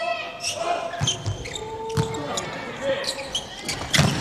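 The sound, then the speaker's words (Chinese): A volleyball bouncing on the court before a serve in a match involving China's team: several dull, sharp thuds about a second apart, under a commentator's ongoing talk. “刘永真来发球”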